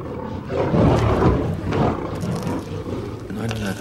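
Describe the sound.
Lions roaring in a lions' den, several deep, growling roars that swell and fade one after another, loud and rough-textured with brief dips between them.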